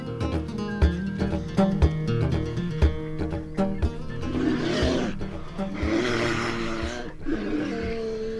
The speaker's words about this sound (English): That is two enormous polar bears challenging each other for access to food.